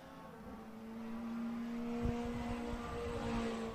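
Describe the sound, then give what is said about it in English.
A race car crosses the start-finish line at Buttonwillow during an SCCA club race, a faint, steady engine drone holding one pitch with a brief knock midway. “All right, here comes our leader crossing our start-finish line for the end of the first lap.”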